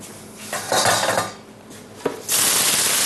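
Onion goes into a hot cooking pan for frying with garlic: a clatter of pan and utensils, then a sudden loud, steady sizzle that holds to the end.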